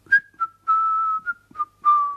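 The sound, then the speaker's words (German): A person whistles a short tune of six clear, fairly high notes. Two of the notes are held longer, with brief gaps between them, and the whistling is heard alone without any talk. “Könnt ihr eigentlich pfeifen? So zum Beispiel.”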